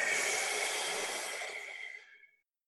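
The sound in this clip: A single long breath drawn in during a calming meditation exercise, a loud, airy hiss that holds steady, then thins and fades before cutting to silence.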